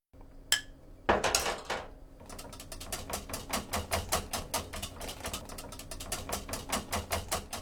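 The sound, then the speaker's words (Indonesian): A wire whisk beats a honey and milk mixture into beaten eggs in a bowl. A few separate clinks come first, then a steady, rapid run of many metallic taps against the bowl. “Setelah itu, masukkan campuran itu ke dalam kocokan telur dan aduk rata menggunakan alat pengocok.”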